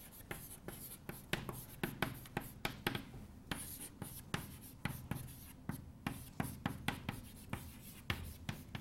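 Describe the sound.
Handwriting: many quick scratchy strokes in uneven bursts, faint and dry, as words are written out with short pauses between them.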